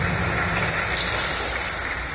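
A church audience claps their hands together, making a dense, steady wash of many overlapping claps that continues without a break from start to end.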